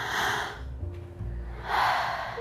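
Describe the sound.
A deep breath drawn in, heard as a soft, airy rush that is later followed by a second breathy swell, quiet and without voices.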